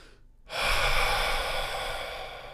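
A long, complete breath out followed by air let in through the nose during a breathing exercise, heard as one steady, airy rush of about two seconds after a short quiet start, with no talking.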